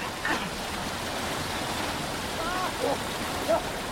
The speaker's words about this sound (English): The men flail about in the rapids.